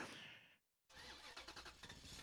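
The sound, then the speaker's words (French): A Renault 4L's engine starts, quiet overall: after a brief low rumble and a short silent gap, the motor catches and runs with an uneven, pulsing mid-pitched churn. “Eh ben oui, je démarre. On y va, on prend la 4L et c'est parti, on le suit tout de suite.”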